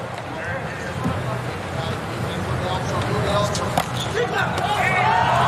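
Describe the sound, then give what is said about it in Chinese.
A volleyball serve is struck for an ace in a match between the United States and Italy: a couple of sharp ball thumps under continuous commentator talk. “哦，发球直接得分”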